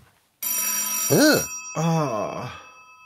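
A telephone rings in two electronic bursts. Each burst has a sustained bright tone and a warbling, swooping melody beneath it.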